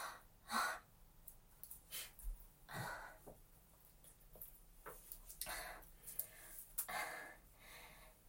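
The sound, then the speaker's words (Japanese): Soft breathing being steadied after coughing, a few quiet, uneven breaths and gasps rising and settling one after another, faint and alone with no talk. “呼吸を整えます。”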